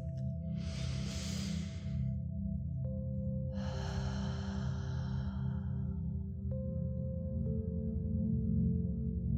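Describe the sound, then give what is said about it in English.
Two deep breaths during a guided relaxation exercise, each a long, soft rush of air several seconds in length, separated by a short pause, over a steady low hum. “For now, let's sit and take a few deep breaths together.”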